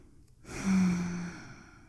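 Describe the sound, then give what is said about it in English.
A single warm, drawn-out breath is exhaled against someone's neck, sounding as a soft, airy sigh that swells and then fades, quiet and alone. “that's my warm breath as I pant against your neck.”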